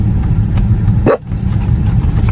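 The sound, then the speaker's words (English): A dog gives a single sharp bark that stands out over a steady, loud engine rumble from a car. “she's barking at that guy”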